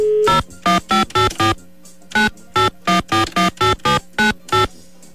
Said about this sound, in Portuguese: Vamos lá, vamos ligar pro nosso time de júri, vamos ver quem é que tá aqui hoje.